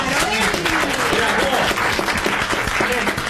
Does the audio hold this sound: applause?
yes